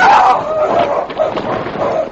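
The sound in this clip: Sled dogs bark and yip in an excited burst as the team leaps forward off a grinding ice floe onto solid shore ice, a few sharp, fairly loud calls running close together.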